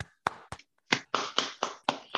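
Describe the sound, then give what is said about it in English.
Hand clapping in celebration of a Detroit Lions win: several sharp, separate claps in a slightly uneven rhythm, fairly quiet and alone with no voices. “They finally did it. Clap it up.”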